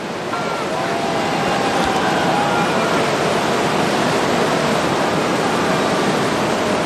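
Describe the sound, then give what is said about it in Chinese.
Tidal bore rushing up a river at Yanguan, its front arriving as one long curved line of water: a loud, steady roar of churning surge that holds unbroken throughout. “我们看到今天的一线潮是一道优美的弧线，这是因为河床有高低起伏，各股潮水快慢不同，形成了弧线。”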